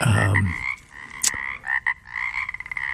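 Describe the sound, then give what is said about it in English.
Pacific chorus frogs calling, with repeated raspy, two-part croaks that end in a run of quick pulsed clicks. A low rumble sits at the start and a sharp click cuts in midway. “the Pacific chorus frog is the one which is most widely recognized and most evenly distributed over the state”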